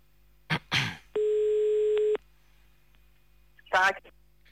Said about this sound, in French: on appelle maintenant à Soirley. Allez, c'est parti, ça sonne.